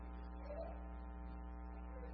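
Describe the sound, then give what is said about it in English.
Low steady hum of an air conditioner that has been making noise, a faint continuous drone with a fixed buzzing tone and no changes or talking. “Is that our air conditioner? I think that's our air conditioner. We've been having some issues with our air conditioner making noise.”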